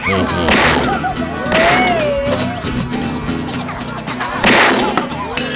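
Gunshots fired toward a ceiling: a few sharp, loud cracks burst out over a busy, continuous background of other sound.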